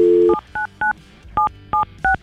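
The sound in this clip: A telephone number dialed on a keypad: a short steady tone, then five crisp, evenly pitched dual-tone beeps at an irregular pace, loud and clear with no talking.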